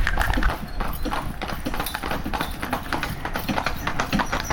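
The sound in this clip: Freiberger horses trotting up a hill, their hooves beating a steady, rapid clip-clop of many strikes that runs loudly throughout.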